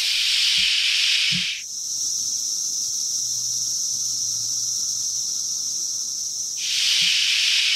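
Call of the smaller cicada species Cassini: a loud, hissing buzz that suddenly thins to a fainter, high whine for several seconds, then swells back to the full hiss.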